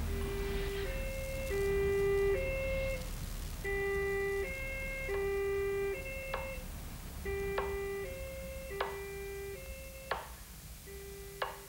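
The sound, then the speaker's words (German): A vehicle's two-tone siren is switched on, alternating steadily between a higher and a lower pitch and repeating many times over a low rumble, with a few sharp clicks near the end. “Nun schalten Sie doch die Sirene ein.”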